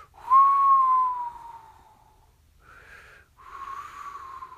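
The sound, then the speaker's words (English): A person whistles to imitate a whistling sound in a children's story: a long, fairly loud tone that slowly sinks in pitch, then, after a pause, a short breathy whistle and a steadier final one. “all of a sudden they heard a whistling sound like this.”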